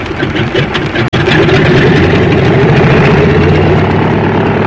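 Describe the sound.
Small airplane engine revving to full power with the brake held just before takeoff: a loud, constant, rumbling drone with buzzy overtones that holds steady throughout, broken only by one momentary cutout near the start.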